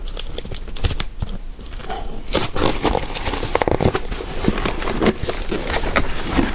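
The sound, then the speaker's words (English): Tape being pulled off a cardboard candy box with a handle on top: many irregular crackles, rips and crinkling scrapes, loud and dense throughout. “So let's open this box. It has a handle at the top.”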